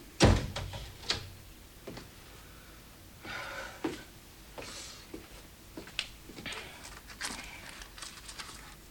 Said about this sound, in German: Schließt die Tür.